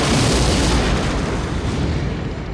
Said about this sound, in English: A North Sniper opens fire. The explosion forced John to run straight into a piece of flaming wreckage.